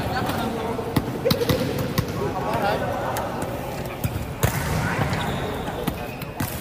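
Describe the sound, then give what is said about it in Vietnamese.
A ball bounces repeatedly in a table tennis hall at a city sports festival. Sharp, irregular taps recur many times over a steady wash of crowd noise and background voices. “Tiếng bóng nảy liên hồi trên mặt sân, những bước chạy khởi động gấp gáp trên khán đài.”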